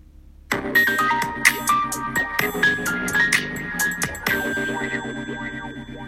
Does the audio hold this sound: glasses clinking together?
no